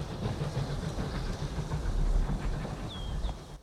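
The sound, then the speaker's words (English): A steam train pulls away from a station platform with a steady, moderately faint rumble and clatter; a couple of brief high squeals come near the end. “The train puffs away to reveal an empty platform.”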